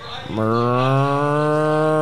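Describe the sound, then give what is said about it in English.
A cow gives one long, steady moo, a low and full bellow held for nearly two seconds with no talk. “Oh, it's a cow.”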